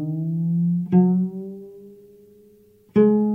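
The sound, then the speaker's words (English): Plucked cello A string struck three times, each note ringing and decaying while the tuning peg is turned, the pitch audibly bending during the long middle note. “Here's A, and I will turn the peg. So you can hear as I turn it down, it's getting looser and the pitch is going lower. And if I turn it back up,”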